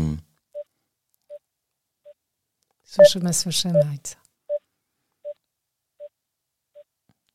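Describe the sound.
Short, steady beeps on a telephone line while a call to Gabon is being connected. The faint tones repeat at even intervals, and a person speaks briefly over them in the middle.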